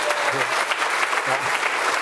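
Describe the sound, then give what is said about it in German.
Audience applause after a talk at a computer congress: dense, steady clapping fills the whole clip at an even, fairly loud level without breaks. “Und der Applaus? Ja.”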